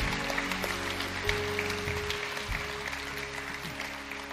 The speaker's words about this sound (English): Can we put our hands together and welcome people into God's family?